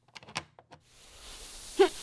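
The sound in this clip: A door being closed: a few light clicks and rattles, then a soft rising rush of air and a single muffled thud near the end, all faint and with no voices.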